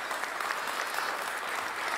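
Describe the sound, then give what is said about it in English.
An audience applauds a wife and mother in a steady patter of clapping hands, fairly faint and even, sustained from start to finish. “So I think we should applaud also you as a wife and as a mum. Well done.”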